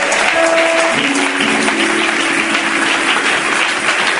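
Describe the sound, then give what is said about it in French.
A church audience stands and applauds to acclaim the Lord, a steady, dense wash of clapping at an even level. Held low tones run beneath it early on. “Est-ce que nous pouvons nous lever pour acclamer correctement le Seigneur?”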